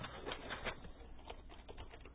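Typing on a computer keyboard, a run of many light, irregular key clicks, very faint and with no voices.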